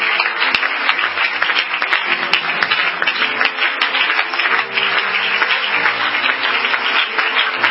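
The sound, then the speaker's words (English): A church audience applauding a preacher as he comes up to minister, loud, dense clapping that stays sustained and even from start to finish. “Why don't you make him welcome? Give him a good hand as he comes to minister the word of the Lord to us.”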